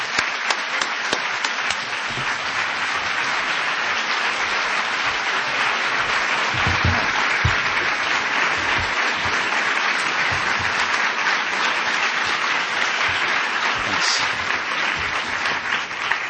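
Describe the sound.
Loud, sustained applause from an audience greeting guest speaker Khaled Hosseini at a Philadelphia event. Dense clapping holds steady throughout without fading.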